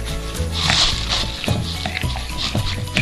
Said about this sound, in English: So now we are gonna stir it in with the rest.